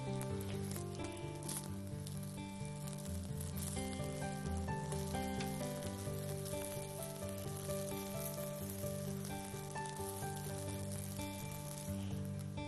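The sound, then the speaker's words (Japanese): Food pan-frying in a frying pan until browned on both sides, a quiet, steady sizzle that continues without a break. “両面こんがりといい焼き色がつきましたらフライパンから一回離します。”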